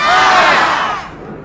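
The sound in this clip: A crowd shouts aye together in a voice vote approving a mayor at Resurrection City, one loud, sustained collective shout that fades over about a second and a half.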